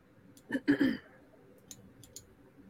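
Computer mouse clicks: a few short, dry ticks. The first ones are louder and closer together, followed by fainter, isolated clicks.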